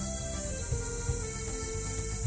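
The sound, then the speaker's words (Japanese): A chorus of cicadas around a banyan tree makes a faint, steady, high-pitched buzzing drone that continues without pause. “セミしぐれだけが優しく響く中、陽介は”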